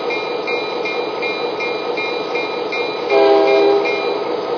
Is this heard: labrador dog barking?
no